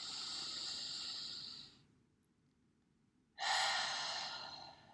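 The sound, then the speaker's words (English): Slow, deliberate breathing in through the nose and out through the mouth: two long, airy hisses separated by a quiet pause, with no talking. “And again, breathe in through your nose.”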